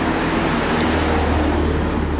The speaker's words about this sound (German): Das ist ganz schön viel Verkehr.